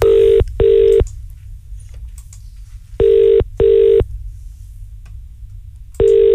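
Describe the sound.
Outgoing telephone call ringing on the line: two complete double-beep ring pairs of steady low tones, separated by long pauses, with a third pair starting at the end.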